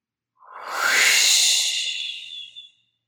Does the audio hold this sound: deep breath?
yes